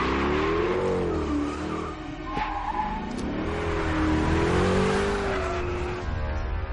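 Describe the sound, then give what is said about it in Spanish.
A police car driving off, its engine revving hard with a wavering, rising and falling pitch and squealing tyres, loud and continuous throughout. “Richard y Turner se montan en un coche de la policía y vuelven al hotel.”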